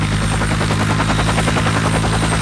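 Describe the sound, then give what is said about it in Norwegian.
Loud, continuous rotor and engine drone of a SAR Queen search-and-rescue helicopter taking off, with a steady, rhythmic thumping pulse running through the whole stretch and no voices. “skal du til slutt få opp et høyteknologisk SAR Queen-helikopter fra bakken”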